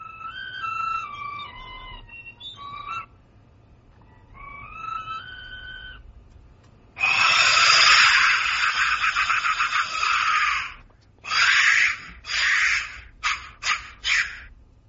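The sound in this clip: A skull-shaped clay death whistle sounds: two tonal whistles with falling pitch, then a long, loud, harsh, rasping scream, followed by several shorter shrieking bursts.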